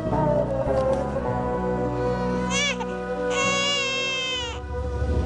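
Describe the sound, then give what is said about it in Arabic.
A baby cries in sustained, harmonically rich wails that turn higher and shriller in two stretches through the second half, loud and continuous throughout with no pause. “حاجة تبكي حبيبي. بكفي، شو صار لك؟ ليش ما عم تسكت؟”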